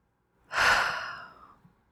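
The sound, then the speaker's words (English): A single slow, deep breath, alone and fairly soft, swelling quickly and then trailing off gradually. “But just taking a breath today, doing a little ritual today.”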